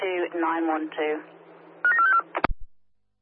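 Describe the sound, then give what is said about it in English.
Telephone keypad dialing tones in a short run of beeps, following a stretch of talking voices and ending with a sharp click before silence. “Copy that, Armadale dialing now.”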